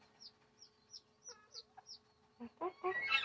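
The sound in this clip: A pet hen clucks: a run of faint, high, short clucks, then a few louder, harsher clucks at the end. No voices.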